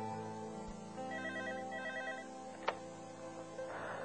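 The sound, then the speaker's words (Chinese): An early-morning telephone rings with a quiet electronic ringtone of rapid repeating pulses over a soft steady hum, and one sharp click is heard partway through. “我一直睡不好，听到电话响”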